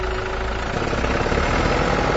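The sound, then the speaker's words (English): A tractor engine runs as it pulls a hay mower cutting tall green oat hay. It gives a dense, continuous, rough mechanical rumble at steady loudness with no voices. “This tractor is pulling a hay mower, cutting rows and rows of tall green oat hay.”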